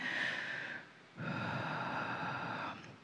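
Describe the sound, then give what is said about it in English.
A deep breath: two long, airy breath sounds separated by a brief pause, faint and with no talking. “Take a deep breath and fill up that oxygen, huh?”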